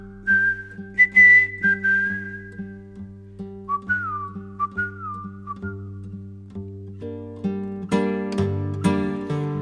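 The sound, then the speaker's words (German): Human whistling carries a tune through the first six seconds of a German folk song, clear, bright phrases riding over a steady instrumental backing that continues and swells after the whistling stops. “Pfeife dir den alten Pfiff am Grab”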